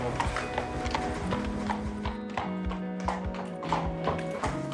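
Hooves of a large horse clip-clop in a steady run of many light knocks over a continuous background.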